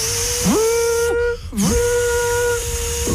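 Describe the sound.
A voice imitates a Minipimer hand blender switching on: a whistling hum that swoops up, then holds a steady pitch. It breaks off with a hiss and restarts the same way, with no other sound.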